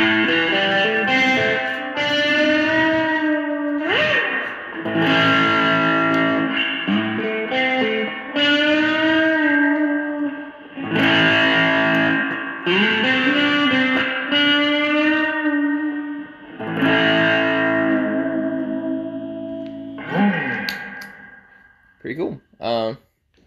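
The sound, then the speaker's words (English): An electric guitar plays through a fuzz distortion effect. Its vibrato bridge is fitted with a tension bar. Thick, gritty sustained notes bend and slide in pitch, in loud phrases separated by short breaks. “Let's do a little bit of fuzz with it here.”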